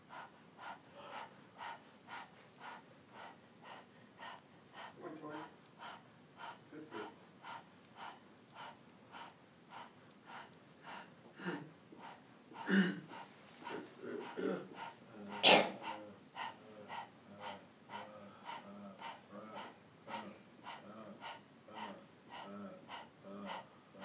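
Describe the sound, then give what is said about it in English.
Rapid breathing in and out through the mouth during a gentle mindfulness breathing exercise, with many quick, evenly spaced breaths in a steady rhythm and a few louder, sharper breaths midway. No talking. “we're going to just gently and rapidly Breathe in and out through the mouth”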